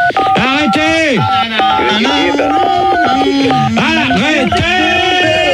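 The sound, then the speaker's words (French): Electronic phone keypad tones play the Marseillaise as a melody of steady, bright notes and short runs. Several people talk and laugh loudly over the tune throughout. “J'ai reconnu, il joue la Marseillaise quand même.”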